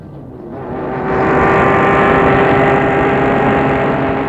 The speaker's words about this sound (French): Et la voiture a démarré et parti.